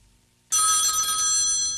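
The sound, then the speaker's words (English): A telephone rings at 5 a.m. The bright, continuous bell-like ring cuts in abruptly after a moment of near silence and holds steady to the end. “At 5 a.m, the phone woke us up.”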